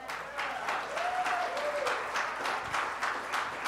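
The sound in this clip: Audience applause welcoming a guest pastor at a church gathering: many hands clapping at an even, steady level, with a voice briefly heard over it.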